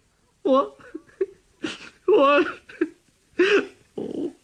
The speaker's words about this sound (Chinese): 这小子真哭了。哎，我说你怎么回事？哎，你哭什么呢你？